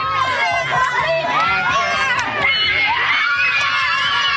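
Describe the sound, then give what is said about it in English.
Selkirk students cheering to welcome Premier Wab Kinew at a free youth transit announcement: loud, sustained shouting and high excited screams from many young voices, with constant crowd chatter underneath. “Selkirk students giving Premier Wab Kanew a warm welcome Tuesday morning”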